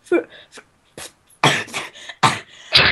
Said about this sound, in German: Erst atmen, dann sprechen. Nicht beides gleichzeitig, das klappt nicht. Erst husten, dann sprechen.